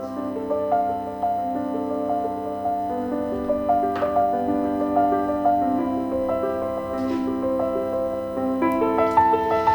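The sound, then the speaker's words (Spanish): Classical background music by Bach plays alone, with sustained, steady tones and a moving melodic line of stepwise held notes over a low, even drone, at an unchanging moderate level. “Hoy, como todos los miércoles, tenemos una música de fondo a nuestras palabras.”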